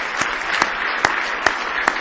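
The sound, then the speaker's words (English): Congregation applauding in praise at a church service: loud, dense clapping with five sharp, evenly spaced accented claps that stand out in a steady beat. “Give Him one more big hand clap of praise tonight if you love Him.”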